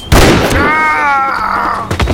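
Pistol gunshot sound effect: one loud, abrupt blast followed by a ringing, slightly falling whine, then a second sharp hit near the end.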